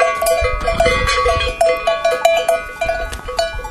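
Bells hanging at the necks and chins of grazing animals in a gorge clank as they nibble grass: many overlapping bright metallic rings in an irregular, continuous jangle with no pause.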